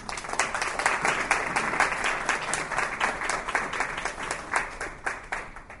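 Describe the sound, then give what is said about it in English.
Audience applause welcoming a professor before a lecture: dense, even clapping from many hands that holds steady and then tapers slightly toward the end. “I will just ask you to please join me in giving a warm welcome to Professor John Thorpe.”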